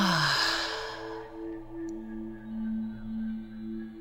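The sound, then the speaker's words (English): A single deep breath rushes out as a breathy burst of air that fades within about a second, then soft, sustained music tones swell and ebb on their own. “Take a deep breath in through the nose and then out through the mouth.”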